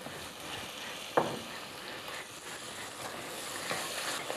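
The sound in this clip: Curry paste stir-fried with crispy fish and a splash of fish sauce sizzles steadily in a pan. One sharp utensil knock stands out early against the soft, even frying hiss.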